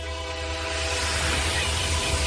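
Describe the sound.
A Renfe train rolls past with a continuous loud rumble and hiss, a steady tonal drone running under the whole passage.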